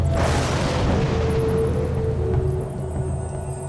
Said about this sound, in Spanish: Fuera de la caverna, la lluvia le había ganado la batalla al fuego. De pronto, la luz de un rayo iluminó algo que había estado oculto por mucho tiempo.